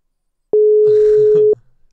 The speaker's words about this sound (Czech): tak ho zkusím mu zavolat, možná s někým volá.